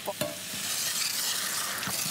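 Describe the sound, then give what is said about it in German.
Liqueur hits fruit in a hot pan and sets off a steady, hissing sizzle. A couple of faint clicks sound through the continuous frying noise. “Die können natürlich ihr Aroma jetzt durch die Hitze noch mal so richtig abgeben. Ich gebe jetzt auch schon mal immer so ein bisschen Likör dazu.”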